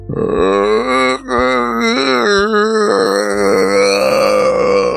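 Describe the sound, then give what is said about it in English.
A groan from somewhere in the distance, deep, throaty and drawn out over several seconds, its pitch wavering, with a brief catch near the start before the moan carries on loudly to the end. “And in the distance, you hear a groan.”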